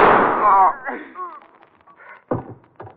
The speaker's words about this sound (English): He's got a gun. Don't shoot, Richie.